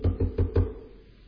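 Four knocks on a gate at night: dull, low thuds in a quick, steady rhythm, each ringing briefly before the sound fades to quiet.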